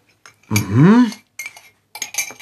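Cutlery and dishes clink during breakfast in a kitchen, with a few short, bright metallic clatters separated by brief pauses.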